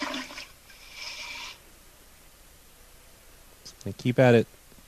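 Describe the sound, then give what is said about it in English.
A clogged toilet is flushed repeatedly: a couple of short, hissing rushes of water, then a pause before a person speaks. “I'm going to keep flushing and just trying to get these to go down.”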